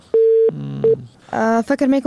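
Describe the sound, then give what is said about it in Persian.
Telephone tone on a call cut off when the caller's calling credit ran out: a steady mid-pitched tone, a brief break, a short repeat of the tone, then a voice talking. “فکر میکنم کردیتشان تمام شد و تماس سبقت الله قادری قطع شد.”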